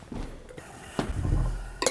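A wine glass being handled, giving a few brief, bright clinks spread across the moment over a quiet, low background, with the last clink the sharpest.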